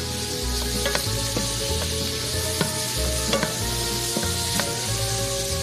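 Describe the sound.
Eggplant fries in oil with a steady, loud sizzle while it is tossed and stirred now and then, making occasional light knocks and scrapes through the constant hiss.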